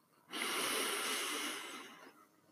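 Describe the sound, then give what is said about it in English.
A slow breath through the nose during a guided breathing exercise, heard as a single soft, airy hiss that holds steady for about two seconds and then fades into quiet. “And breathe out. And take another breath.”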